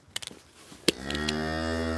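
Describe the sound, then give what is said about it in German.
A cow moos in a barn stall: a long, low, steady bellow starts just before the first second and holds to the end, preceded by a few short knocks. “Ja, wir können die Kuh auf jeden Fall rauslassen, die kann jetzt wieder zu den anderen.”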